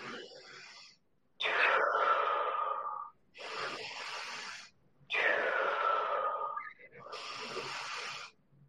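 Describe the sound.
Deep, full breaths during a guided breathing exercise: airy, rushing inhales and exhales in a steady rhythm. Longer, louder breaths alternate with slightly softer ones, separated by short silent pauses.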